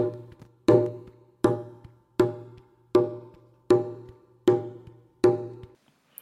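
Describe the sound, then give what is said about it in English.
A llamador drum plays a cumbia pattern of seven strong, resonant strikes at an even beat, each ringing briefly and decaying, with soft muted taps in between and no voices. “So the llamador of the caller sounds like this.”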